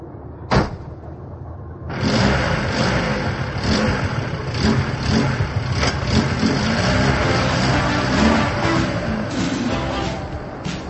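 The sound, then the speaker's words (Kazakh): A passenger car's engine runs. One sharp thump comes early, then the engine starts about two seconds in and keeps running with a steady, rumbling drone until the end. “Җиңел машина Асияны билгеләнгән урында көтеп тора иде.”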